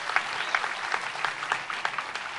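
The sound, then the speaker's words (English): Applause from a church audience, a steady patter of many hands clapping with bright, rapid claps that hold at an even, moderate level for a couple of seconds. “And I just wanted, amen, give a clap.”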